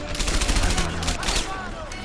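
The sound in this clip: Gunfire in a wartime video game played with a rifle against German soldiers: dense, rapid bursts of shots crackle and overlap in a busy, noisy mix with no clear pause.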